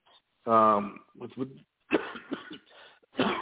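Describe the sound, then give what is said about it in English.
A loud, harsh cough, voiced and rasping, bursts out once near the start and is followed by spoken talk. “as I'm coughing now”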